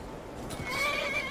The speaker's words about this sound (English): I'm gonna find a nice little safe spot for the horses to shelter here.